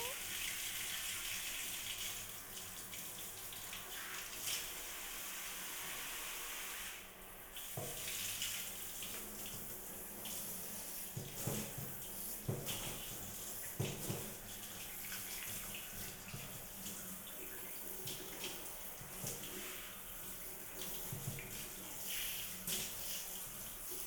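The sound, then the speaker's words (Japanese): Shower water runs continuously with a broad, steady hiss, broken by irregular splashes and louder bursts as the spray shifts. “シャワー気持ちいいですか？ぬるぬるが残らないように、きれいきれいにしましょうね。”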